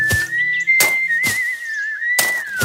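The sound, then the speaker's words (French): A person whistles a tune while working, gathering moss out on a heath: one steady high whistle that wavers slightly in pitch, broken by four loud, noisy bursts of working sound. “Laura fit ce qu'il devait faire et travailla en sifflotant.”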